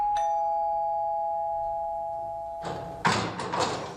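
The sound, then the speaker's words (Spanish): A doorbell rings with a single clear chime whose tone hangs and slowly fades over a few seconds, followed by brief bumping and rustling noises. “Veña, imos timbrar.”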